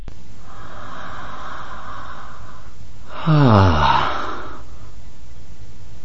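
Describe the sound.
Amplified human breathing: a long, airy inhale lasting a few seconds, a brief pause, then a louder, rough exhale with a buzzing, voiced quality that falls in pitch before fading.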